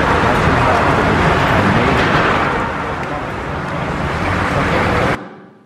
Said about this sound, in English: okay, so you can probably identify traffic noise and cars directly.